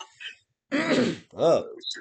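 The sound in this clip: A person clears their throat with a rough, raspy burst, then a short voiced grunt. A faint, brief sound comes just before it.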